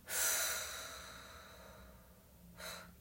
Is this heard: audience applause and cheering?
no

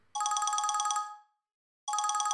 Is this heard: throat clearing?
no

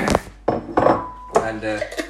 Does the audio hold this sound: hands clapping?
no

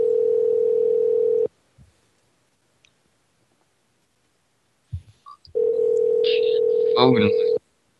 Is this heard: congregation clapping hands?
no

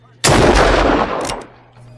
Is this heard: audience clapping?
no

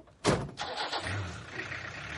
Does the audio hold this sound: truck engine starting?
yes

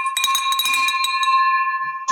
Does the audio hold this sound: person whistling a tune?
no

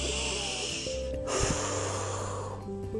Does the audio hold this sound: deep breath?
yes

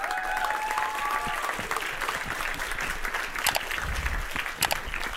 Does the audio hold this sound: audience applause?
yes

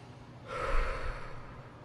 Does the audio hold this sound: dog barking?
no

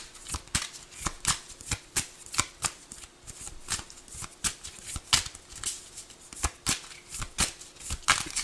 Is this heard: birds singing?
no

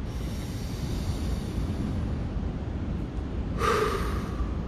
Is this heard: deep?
yes

